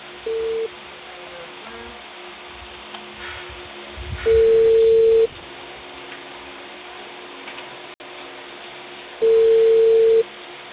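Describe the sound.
Telephone tones as a call is placed: a short beep, then two longer steady tones about five seconds apart, with faint clicks and ticking in the quiet gaps between them and no one speaking.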